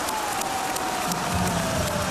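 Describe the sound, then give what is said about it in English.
Crowd cheering at an Australian football match between the Swans and the Adelaide Crows, a dense, steady roar that stays loud throughout. “Couple of quick goals for James Rowbottom. And that ignites the crowd even more.”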